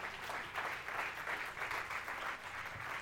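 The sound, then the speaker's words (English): Applause from a church audience honoring a guest after worship: a steady, dense wash of clapping that holds at an even loudness for the full stretch, with no distinct voices rising above it. “let's give a round of applause for Broward.”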